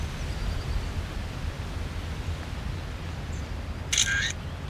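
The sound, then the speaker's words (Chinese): A single camera shutter clicks as a photo is taken, one short crisp snap near the end against a steady background hiss. “你在这儿，我给你拍张照片。”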